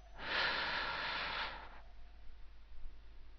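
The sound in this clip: A single deep inhale during a guided breathing exercise: a long, airy breath of about a second and a half. The rise is smooth and the release is gentle, followed by near-silence.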